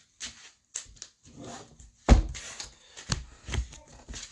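Playing cards are shuffled during a play session of a DC superhero deck-building card game. Several soft riffling bursts come in uneven succession, with one sharper slap near the middle. No talk is heard.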